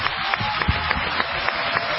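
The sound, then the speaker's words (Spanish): Steady applause from an audience at an inaugural event in a cultural centre: a dense, even patter of many hands, fairly loud throughout, with small bursts rising from the wash and no voices. “Un aplauso para Linda.”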